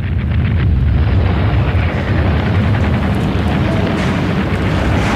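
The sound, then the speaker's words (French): Bombing explosions played in a museum elevator: a loud, steady rumbling roar, dense and low like heavy bombardment with aircraft noise, continuing without pause throughout. “Et là, il y a des bombardements, on entend les bombardements.”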